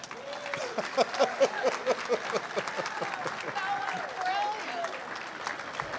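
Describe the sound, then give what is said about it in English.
Applause from an audience at a celebration for departing colleagues, moderate clapping with voices talking over it throughout. “That's all the applause.”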